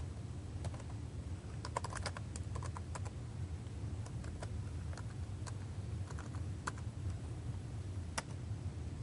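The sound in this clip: Keys click on a computer keyboard as someone types a URL into a mobile device emulator. Many quick, faint taps come in irregular bursts over a low steady hum, with no talk.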